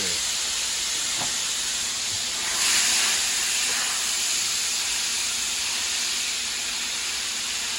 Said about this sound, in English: First order of business, guys, I'm gonna put some water on top of it. Just keep the steam going.